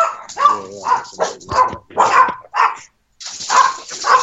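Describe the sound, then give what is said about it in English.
Small dogs barking and yipping at home, the little fella and the girls, in rapid bursts of sharp, high barks with a brief pause near the end before more barking. “That sounds like the little fella. I'm going to let them outside so they'll stop barking.”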